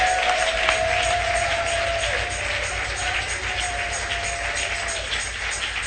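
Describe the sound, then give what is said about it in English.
Crowd clapping and cheering at a religious gathering, a dense, steady wash of applause that holds at an even level throughout, with a faint sustained tone running beneath it. “Are you clapping?”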